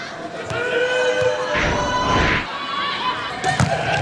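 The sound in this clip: A volleyball jump serve is struck hard in a match against a Korean team and scores directly. The hit is a sharp slap under excited commentators' voices and crowd noise.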